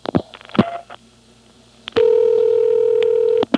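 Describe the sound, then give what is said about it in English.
Dialing the digit one into a telephone trunk line. A few sharp clicks come first, then a quieter pause. A steady, low telephone tone with a faint overtone sounds for about a second and a half before cutting off with a click. “There's a pulse repeater, so I really couldn't hear what that did. So I'll dial one again.”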